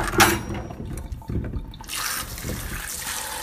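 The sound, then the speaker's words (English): Potatoes are rinsed under running water, producing an uneven splashing and trickling hiss that turns into a steadier, fuller rush of water in the second half, with no talking. “I'm just giving these a bit of a rinse off. Don't want to get them too clean.”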